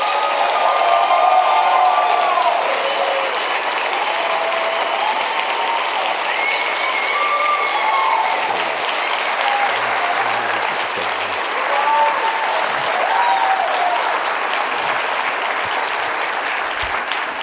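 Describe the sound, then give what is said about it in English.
Applause from an audience welcoming a guest onto the stage at a 92NY event, co-hosted with the Museum of Modern Art. Loud, dense, continuous clapping runs throughout without a break. “Let's give a warm, not only a 92NY welcome, but a Museum of Modern Art welcome to Mr. Marc Maron.”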